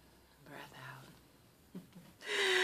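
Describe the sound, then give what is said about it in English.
A deep breath drawn in during an oracle card reading: soft breathy murmurs come first, then a loud, rushing intake of air fills the final half second. “Breath in.”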